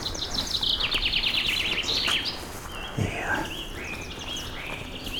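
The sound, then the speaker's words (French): Birds sing loudly at seven in the evening in a half-clearing of flowering alpine meadow with dense green grass, giving quick series of high, repeated chirps and trills that overlap throughout, fairly faint overall. “Ces oiseaux qui à 19h du soir s'égosillent”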